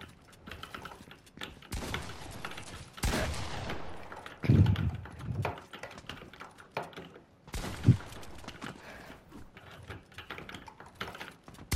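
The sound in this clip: Gunshots in a video game, a few sharp loud bursts scattered through a stretch of busy clicking that resembles keyboard typing.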